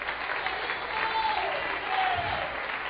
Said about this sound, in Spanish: Dale un aplauso a Cristo, que se lo merece.